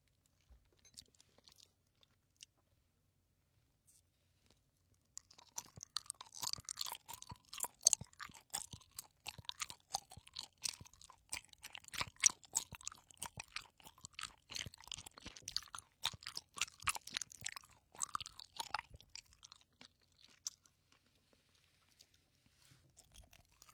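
Close, quiet chewing of a soft pineapple-flavoured gummy candy: many sticky, wet mouth clicks and squelches in a steady run that begins after about five seconds of near silence, with no talk.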